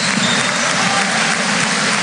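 Spectators clapping at a basketball game, a dense, steady wash of applause that holds at an even level for the whole two seconds.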